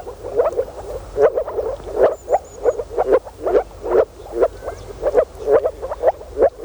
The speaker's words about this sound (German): Das hier sind Moorfrösche. Im Frühjahr versammeln sie sich in Gräben und Tümpeln, um ihren Laich im Wasser abzulegen.